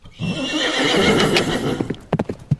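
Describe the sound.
A horse gives a loud, drawn-out whinny lasting nearly two seconds, then several sharp hoof clops follow as riders set off on horseback in the still-dark early morning.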